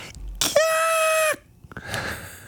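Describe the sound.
A voice imitates the scream from a song's intro, sung at karaoke: a single loud, sustained high shriek lasting under a second, followed by quieter breathy noise.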